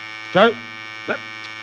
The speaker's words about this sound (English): What's the matter with this blasted buzzer?